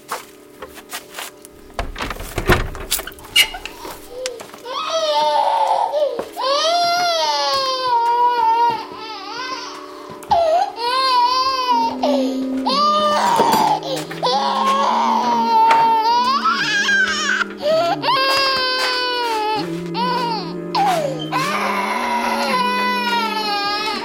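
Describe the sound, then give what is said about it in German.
A baby wails in long, rising and falling cries over low, steady accompanying tones, loud and persistent with only short gaps between sobs. “Ich habe keine Milch mehr. Sie hat keine Milch mehr. Und deshalb weint es.”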